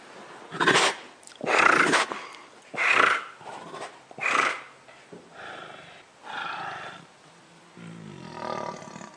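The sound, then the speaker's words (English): A tiger purrs and growls while eating a human body and snapping its bones. A series of loud, rough, rumbling bursts comes in a slow, uneven rhythm, with no talk. “He described the sound that a tiger made while he was eating the body of a human being. And it sounds like this.”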